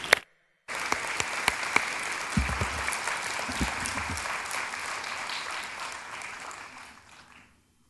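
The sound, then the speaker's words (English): Audience applause welcomes a reverend as guest speaker at Celebration Church. After a brief opening sound, sustained clapping with a few sharper claps runs for about seven seconds, then gradually fades away. “So would you put your hands together and give a warm welcome to the Reverend Jimmy Bratcher.”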